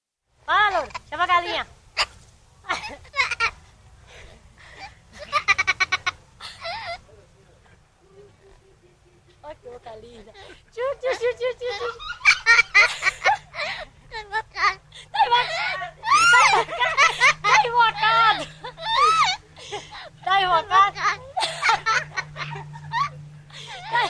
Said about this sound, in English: I wanted to actually play a sound here that I know really resonated with you. It's the sound of a parrot and a girl laughing